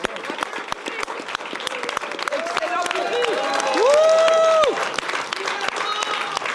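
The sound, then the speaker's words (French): An audience at a talk show applauds with steady, dense clapping throughout, with a brief whistle near the middle. “Et Marine, qu'on applaudit bien fort.”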